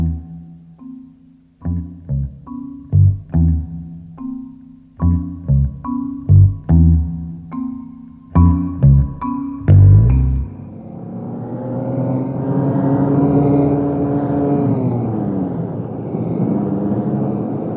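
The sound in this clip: A car drives along a country road, its engine a loud, steady rumbling drone with a shifting whine, coming in after several seconds of punchy, staccato music chords.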